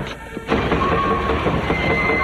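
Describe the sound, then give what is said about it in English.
A heavy clunk as watertight doors begin closing, followed by a steady, loud mechanical rumble and grinding with a thin, constant whine running through it. “I'm closing the watertight doors.”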